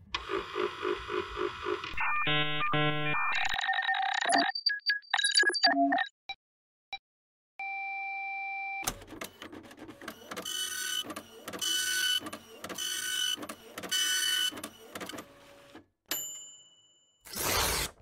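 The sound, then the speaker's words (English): An old, big computer starting up, as a sound effect: a string of electronic bleeps and warbling tones, a short pause, then rapid mechanical chattering bursts, ending on a high, clear tone. “So, let's get out the old big computer of Hollywood Ideas 2000 and fire her up.”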